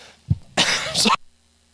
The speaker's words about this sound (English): sorry, I'm still getting over this cough.